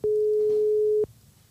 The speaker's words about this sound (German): Ich rufe einfach mal, ich habe ja schon mal irgendeine Nummer gewählt.